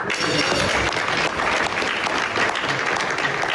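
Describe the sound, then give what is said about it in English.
Applause at a G7 leaders' dinner at the Palace of Versailles, led by French President Emmanuel Macron: dense, sustained clapping that holds steady at an even level for the whole stretch. “President Trump added his signature to the Memorandum of Understanding at a dinner for G7 leaders last night at the Palace of Versailles, the French President Emmanuel Macron leading the applause that you heard just there.”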